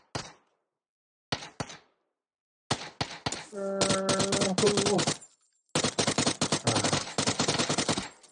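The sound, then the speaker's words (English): Gunfire from a UMP submachine gun in a video game: a few isolated shots, then two long, loud automatic bursts of rapid, dense cracks separated by a short gap. “The UMP is nutty. It is nutty.”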